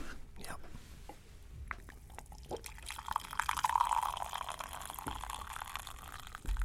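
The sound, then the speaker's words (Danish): Coffee being poured, a few light clinks and drips leading into a sustained liquid gurgle through the middle, with a soft voice faintly present. “skal lave lige lidt lydeffekter her med kaffen.”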